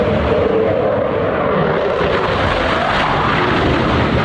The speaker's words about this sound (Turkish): Blue Angels ekibine ait savaş jeti kalabalığın üzerinden alçak irtifada uçtu